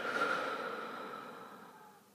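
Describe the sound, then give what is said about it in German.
A deep, guided breath, drawn in through the nose and let out through a slightly open mouth, comes as one soft, airy rush that is strongest at first and fades over about two seconds. “Atme einmal tief durch die Nase ein und durch den leicht geöffneten Mund wieder aus.”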